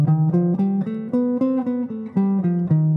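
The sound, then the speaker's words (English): A melodic minor scale played on a single instrument in a jazz improvisation setting: a steady run of about eleven distinct sustained notes climbing in pitch and then stepping back down, loud and alone with no talk. “And melodic minor scale sounds like this.”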